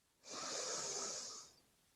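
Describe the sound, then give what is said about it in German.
A single slow exhale through the mouth during a guided breathing exercise: a soft, airy hiss that swells, holds for just over a second, then fades, heard alone. “halte kurz inne und atme dann durch den Mund aus.”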